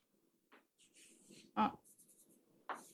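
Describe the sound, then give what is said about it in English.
Faint scratching strokes of writing on a board during a lecture, in a few short bursts with a sharper stroke near the middle and another at the end. “Reduces to, let me write it here.”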